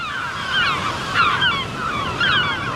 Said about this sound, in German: Schön, oder? Das ist der Sound der Nordsee.